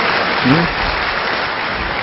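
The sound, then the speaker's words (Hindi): Audience applause at a lecture: a dense wash of many hands clapping at once, steady and continuous for about two seconds with no clear peaks or breaks. “हाँ तालियां बजाइए”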